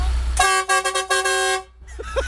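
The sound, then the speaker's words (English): A lorry horn honks at the start point of a truck convoy at a showground: one loud, steady, harmonic blast lasting over a second with a slightly pulsing tone. A short voice sound follows. “Give us a quick honk.”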